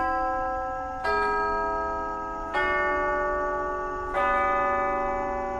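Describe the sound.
A clock strikes midnight with three resonant, bell-like chimes evenly spaced about a second and a half apart, each ringing with rich overtones and sustaining into the next.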